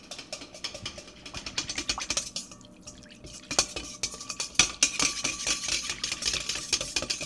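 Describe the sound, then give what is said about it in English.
Whisking yeast to dissolve it, a fairly faint, rapid, continuous run of light clinks and scraping with occasional sharper taps. “I'm impatiently whisking the yeast to get it dissolve a little faster.”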